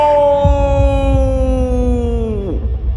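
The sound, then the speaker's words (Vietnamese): A demon roars in pain: a loud, sustained harmonic howl held at a steady pitch, dropping sharply just before it ends, over a low rumble. “Lý Mạnh gầm lên, nhưng tiếng gầm của nó không còn là sự hung hãn nữa, mà là sự đau đớn đến tột cùng.”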